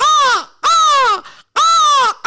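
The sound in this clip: A crow caws three times in loud, harsh, drawn-out calls, each dipping in pitch as it ends, with short, fainter sounds in the gaps between them.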